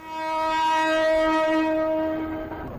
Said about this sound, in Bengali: Kamalapur railway station থেকে ভোরের আলো ফুটতেই উত্তরবঙ্গগামী ধূমকেতু এক্সপ্রেস ছেড়ে যাওয়ার মধ্য দিয়ে আনুষ্ঠানিকভাবে সূচনা হয়েছে এবারের ঈদের ঘরমুখো মানুষের ট্রেন যাত্রা।